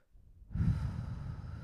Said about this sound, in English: I'd love for everyone just to take a deep breath right now, because God knows I need to. Just take a deep breath in.